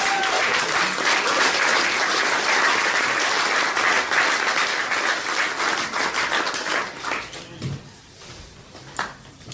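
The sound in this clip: Warm audience applause at a London music interview event as a DJ is welcomed, a dense, steady clatter of clapping that tapers and thins toward the end, leaving a few last claps.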